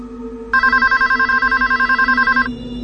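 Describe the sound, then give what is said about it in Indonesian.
A home telephone rings in a fast, pulsing trill for about two seconds, loud and bright above a steady low hum, then stops abruptly while the hum continues. “telepon di rumahku berdering.”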